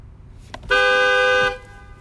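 A single car horn toot: one steady, loud, bright blast lasting just under a second, then quiet.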